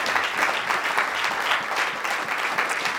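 Warm applause from a church audience in Lloydminster welcoming a guest preacher to the front, a dense, even wash of many hands clapping at a fairly loud, constant level for about three seconds.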